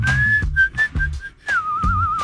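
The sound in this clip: A person whistles a short tune of several clear, high notes with small gaps between them, ending on a longer note that wavers in a fast trill.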